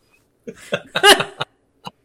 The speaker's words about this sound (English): Bloody hell. Sorry, that was now you made yourself snort.